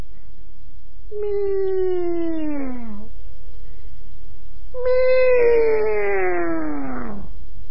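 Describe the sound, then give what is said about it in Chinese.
A human voice imitates a cat meowing: two drawn-out calls, each about two seconds long and falling in pitch, separated by a short pause, with no other sounds. “喵喵喵，又学了几声猫叫”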